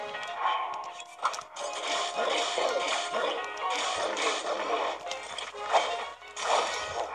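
A shield breaking in a video game: crashing, smashing hits with whip-like cracks, sitting in a dense, continuous wash of noisy game sound.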